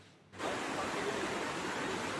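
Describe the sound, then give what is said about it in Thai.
Flash flood water rushes through village communities in Tha Takiap district, Chachoengsao, after heavy rain: a brief quiet gives way abruptly to a steady, broad hissing roar of fast-flowing water that continues unbroken to the end. “มวลน้ำป่าไหลเชี่ยวในหลายชุมชนพื้นที่อำเภอท่าตะเกียบจังหวัดฉะเชิงเทรา”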